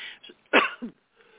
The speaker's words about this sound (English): So I start coughing like a crazy person.